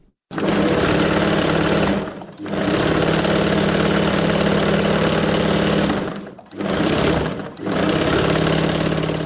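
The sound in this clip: A tailor's sewing machine in Qala-e-Zaman Khan, Kabul, whirs in steady, loud mechanical runs broken by a few brief stops, the motor and needle chatter resuming after each pause with no talk over it.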